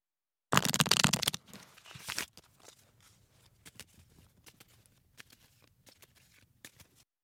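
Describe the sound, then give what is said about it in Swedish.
Tarot cards being shuffled, drawn and laid out in a row of five: a loud papery rustling burst, a shorter second burst, then many soft taps and slides of cards on a surface. “nu har jag lagt ut 5 kort.”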